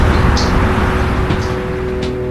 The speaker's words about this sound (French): Pendant ce temps, la secrétaire prend la voiture qu'Adrien devait prendre.